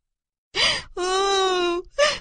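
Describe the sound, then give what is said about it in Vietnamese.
A little girl sobbing and crying in fright: a short gasping sob, then a long, sustained wailing cry and another brief sob, with no other sounds. “Tí hon hoảng sợ, òa khóc nức nở.”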